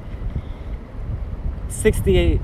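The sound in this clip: Wind buffeting a microphone outdoors, a low rumbling rush that pulses unevenly throughout, with a brief voice cutting in near the end.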